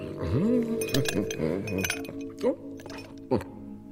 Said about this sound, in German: Ihr habt gefrorenes Wasser aus der Kukulle gezogen. 3 kleine Quader.